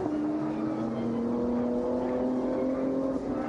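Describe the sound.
Engine of a Porsche 992 race car sliding through the Schumacher S's as its back end breaks away over bumps on cold tyres: a sustained, fairly faint engine whine with a steady pitch, heard continuously with a rushing noise beneath it.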